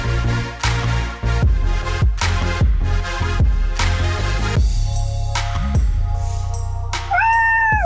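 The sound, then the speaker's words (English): A domestic cat meows once near the end, a drawn-out tonal call after several seconds of music with rhythmic, punchy chords. “And that was my cat saying goodbye”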